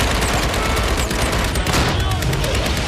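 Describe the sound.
Gunfire following a shouted Turkish command to fire: loud, dense bursts of rapid shots that overlap into a continuous crackling barrage for the whole stretch.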